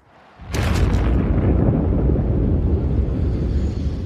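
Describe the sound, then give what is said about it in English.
Nuclear bomb explosion sound effect: one sudden sharp blast, then a heavy, deep rumble that stays loud and roaring to the end. “And tourists flocked to the city for another type of explosion, the nuclear kind.”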